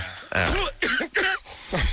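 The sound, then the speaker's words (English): A few raspy, voiced coughs in quick succession, each a short, harsh burst with a throaty, tonal edge and brief gaps between them. “Play it backwards. Play the cough backwards.”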